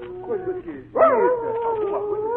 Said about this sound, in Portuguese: voltou latindo lá de longe, parando entre uivos aos pés do Simão Santos.